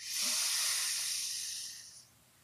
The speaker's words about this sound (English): One more deep breath in.